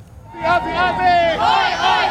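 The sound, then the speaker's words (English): A crowd cheering and shouting as a national football team departs, several overlapping raised voices in a short, lively burst. “See you, San Francisco, as the Socceroos headed south, farewelled with the warmest of cheers.”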